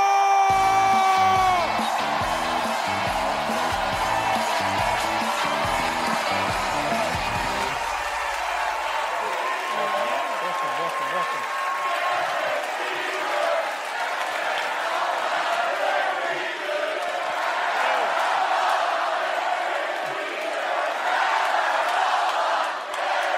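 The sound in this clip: An audience chants and cheers for former New York Yankees captain Derek Jeter, a loud, sustained roar of many voices that swells and holds throughout.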